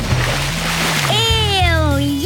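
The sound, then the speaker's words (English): Splash of someone jumping into a swimming pool: a broad, noisy burst of water at the start, followed by a voice with falling pitch. “No one wants to jump into a green pool.”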